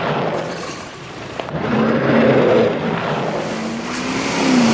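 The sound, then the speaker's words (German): Car engine accelerating, a steady throaty drone that swells louder toward the end, with a slight rise in pitch. “Gib Gas, bloß nicht stehen bleiben!”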